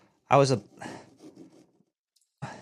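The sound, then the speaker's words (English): A knife carves a Halloween pumpkin, cutting out a wide mouth: a brief voiced sound comes first, then a run of soft, rasping scratches and scrapes, with another short burst at the end. “Oh, we're going to give him the old Joker. Slice his mouth wide open over here. I give him a cut here.”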